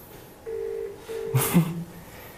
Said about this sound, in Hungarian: És ugyanolyan egy zöld gombot, mint a mobiltelefonon megnyomok, és már föl is hívtam.